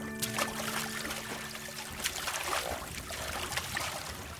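A boat is paddled across a swamp, with soft, irregular splashes and trickling water from the strokes. The sound is faint and continuous, with a quiet tonal hum underneath in the first half.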